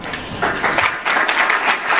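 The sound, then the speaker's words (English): Halting applause from an audience at a speech on drug addiction and criminal justice policy. The clapping comes in uneven bursts that break off briefly and then pick up again. “Notice how there was like halting applause.”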